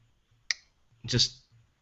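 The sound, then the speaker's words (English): A car's air-conditioning vent ring being twisted gives a short, sharp click, followed by a longer, brighter click. Both are fairly faint over a low background hum. “It's got these rings around the vent. And if you twist them, like, I don't know, 45 degrees, they click.”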